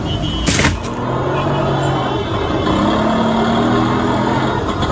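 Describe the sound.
A vehicle engine runs on the road, a steady low rumble that continues throughout, with a sharp burst of noise near the start.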